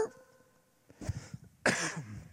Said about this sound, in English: that little screech made me cough.